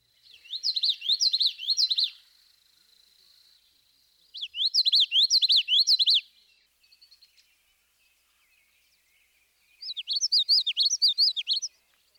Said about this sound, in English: The notes of the yellowthroat's vocalization are normally connected, and this gives a rolling quality to his song.